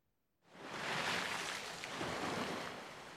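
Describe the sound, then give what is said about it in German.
Sea surf foams against a cliff: after a moment of near silence, a broad hissing wash of breaking water rises, swells, eases slightly and then surges again. It is fairly soft overall, with no voices. “So schäumte das Meer. Die Robbe spielt in den weißen Gischtringen am Kliff.”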